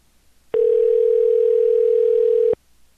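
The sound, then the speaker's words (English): Telephone ringback tone as a call rings through: one steady, unbroken mid-pitched tone lasting about two seconds, starting and stopping abruptly, with quiet low background before and after. “It's ringing through. It's going to somebody's phone, so.”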